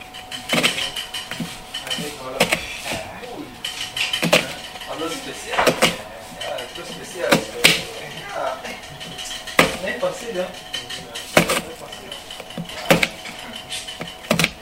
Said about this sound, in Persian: پیاز رو گذاشتم تخته، از چپ به راست شروع میکنم به قاطی زدن ریز، یعنی به صورت خط خط خط خط میبرم میام.